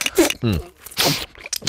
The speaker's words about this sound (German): So, und jetzt probiert doch mal diese Gurke hier.